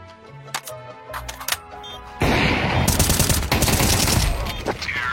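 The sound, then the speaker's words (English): Gunshots: a few scattered sharp pops and tones give way to a loud, sustained burst of rapid automatic gunfire, rattling continuously with dense repeated cracks until the end. “That's bullet two.”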